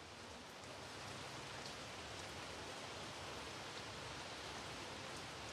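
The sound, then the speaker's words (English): Rain falls outside as a steady, even hiss of countless drops at a constant moderate level throughout, with no voices or other distinct sounds. “We should just pause for 5 seconds and let them get some rain sounds, okay? Starting now.”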